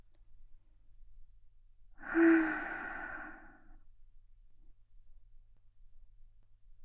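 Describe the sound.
A single slow exhale during a guided breathing exercise. It begins with a faint voiced tone, then becomes a soft breathy sigh that lasts about a second and a half, alone against near silence.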